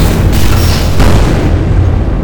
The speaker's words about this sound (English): Ships in range, returning fire.